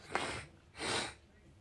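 A sneeze or snort from someone with a cold: two breathy nasal bursts, the second longer and fuller, quiet and without talk.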